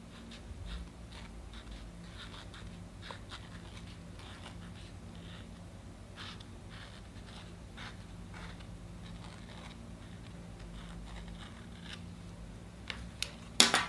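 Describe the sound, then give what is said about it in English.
A silver pen scratches faintly as someone writes a short phrase onto a handmade foam date basket. The soft, steady strokes continue with a few light taps, and a couple of sharper clicks come near the end. “So I'm just going to write that on with my silver pen.”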